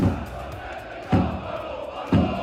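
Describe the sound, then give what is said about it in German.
Opposing Cottbus football fans' chants blare at full volume from giant loudspeakers at a training session in Augsburg, a dense roaring crowd sound punctuated by periodic heavy thumps. “Das sind die Fangesänge des Gegners, also der Cottbusser Fans”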